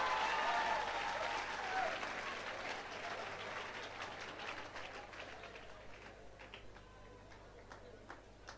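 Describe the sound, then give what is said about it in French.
Audience applause for an interpreter during a talk: dense, loud clapping that is strongest at the start, then slowly thins and fades over several seconds. “Est-ce qu'on peut acclamer mon interprète?”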